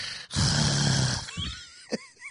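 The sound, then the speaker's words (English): A man's voice imitates the laboured, raspy breathing of a drunk man: one long, rough, snore-like breath with a low rattling tone, followed by a few shorter wheezy huffs. “Like he's struggling to breathe because he's so hammered.”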